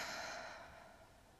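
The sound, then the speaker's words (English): A slow, deep exhale: a soft, breathy hiss that fades gradually, faint and alone. “Take a deep breath in and exhale everything.”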